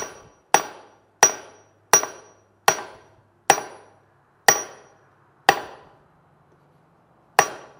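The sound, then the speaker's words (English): Hammer blows drive a tool head tight onto its handle over a wedge: eight sharp, loud strikes, each ringing briefly before fading, spaced unevenly, with a longer pause before the last blow. “this hammer blow is tending to pull the head further and further on instead of pulling it further and further off if I was simply tapping on the wedge. And you will hear this begin to come tight.”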